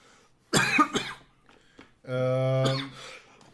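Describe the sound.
A person has a coughing fit as if choking, a few harsh coughs followed by a longer, strained, voiced sound, in a Hungarian chat about video game companies.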